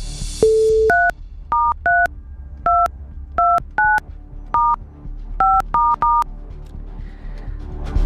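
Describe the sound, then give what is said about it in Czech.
Telephone number being dialed on a keypad: a short single beep, then ten crisp two-note DTMF tones in an uneven rhythm, each clear and equally loud over a faint hum. “Je vytočeno. A u někoho z vás už zvoníme.”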